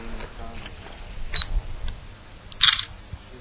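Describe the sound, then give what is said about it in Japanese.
A camera takes photos in a tunnel: two short, high electronic beeps, each with a crisp shutter click, the second burst louder. Faint background noise sits under them. “まあ写真撮れますかね、これ。”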